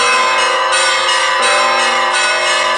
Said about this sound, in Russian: На колокольне звонарь начинает звонить в колокола.